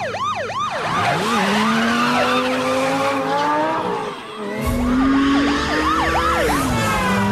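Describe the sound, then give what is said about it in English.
A handheld flashing siren wails in loud, continuous rising and falling sweeps that repeat quickly and overlap, with a brief dip in level near the middle before the wailing resumes at full strength. No talking is heard. “holds up a flashing siren”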